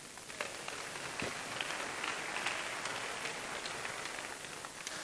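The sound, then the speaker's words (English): Steady audience applause, a soft, dense patter of many hands clapping that holds at an even level throughout with no voices standing out. “Thank you. Thank you for the woos.”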